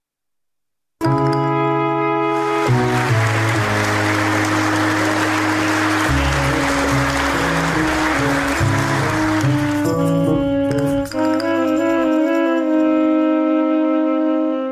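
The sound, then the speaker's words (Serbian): An audience applauds actors after a theatre premiere in Belgrade. Dense, steady clapping runs alongside sustained music notes, and the clapping thins out toward the end while the music carries on. “Dobrodošli u pozorište. Scena prva. Publika u Beogradu pozdravlja glumce nakon još jedne uspešne premijere.”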